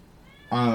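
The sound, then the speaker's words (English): A single loud meow from a male cat, neutered a week earlier and agitated, bursting in abruptly after near-silence and holding a steady, harmonic tone for under half a second. “my cat's going crazy.”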